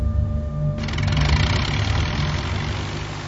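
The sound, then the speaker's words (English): Small aircraft engine at takeoff from a short runway: a steady engine drone that swells into a fuller, rougher roar after about a second and holds there. “The runway's far too short. But it doesn't seem to affect his takeoff.”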